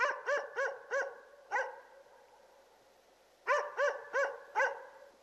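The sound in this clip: A dog barks far off in two bursts of about five sharp, tonal barks each, with a quiet pause of roughly two seconds between the bursts.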